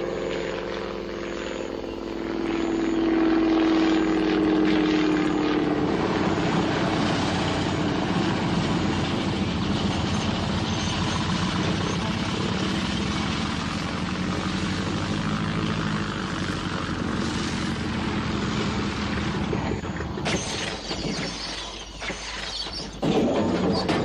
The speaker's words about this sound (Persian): فرود قشنگی بود رفیق.